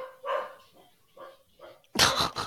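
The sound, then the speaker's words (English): Dogs barking at a home, a few fainter, muffled barks followed by a louder burst of barking at the end, with no talk. “there goes them dogs again”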